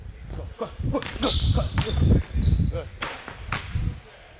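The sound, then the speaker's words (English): A basketball is dribbled during a coaching drill: many heavy thuds bounce at an uneven rhythm while a voice calls out over the play. “Don't drop that dribble. Pick it up.”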